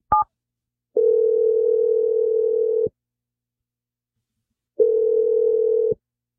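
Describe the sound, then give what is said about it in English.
Electronic telephone line tones after a number is dialed: a short high beep, then two long, steady low tones separated by a gap of silence. “I'm dialing the number right now.”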